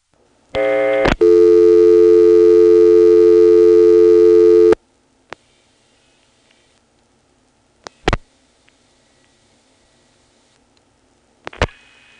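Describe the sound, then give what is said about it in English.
Telephone call tones on a T-carrier line from Occoquan to Manassas: a short buzzy tone, then a loud, steady, harmonic-rich tone lasting several seconds. After it stops, a few sharp isolated clicks break the near-silence. “And this is the new sound of Calling Manassas from Occoquan via T-carrier. And the sad thing is that in 1973, this was really quiet. It was one of those quiet old carrier systems.”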